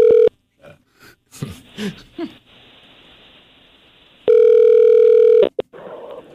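A telephone dial tone sounds as a call is dialed, first in a brief burst and then as a steady tone lasting about a second. Short scattered clicks and bursts come between and after the tones.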